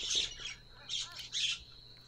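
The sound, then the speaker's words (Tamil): A myna bird gives harsh, raspy squawking calls in a few short bursts, fairly faint, over a thin steady high tone that runs beneath. “மைனா. சுட்டித்தனம், கூச்சல் மற்றும் நளினமான அசைவுகளால் அடையாளப்படுத்தப்படுகிறது.”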